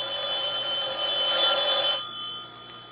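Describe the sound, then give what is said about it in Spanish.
A telephone rings with a steady, bright electronic tone for about two seconds, then drops off to a fainter trailing tone. No voices are heard. “Tendré que ir a contestar yo porque parece que Celia no acude.”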